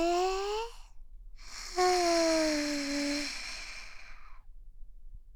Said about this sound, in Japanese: ゆっくり吐き出す。吸って、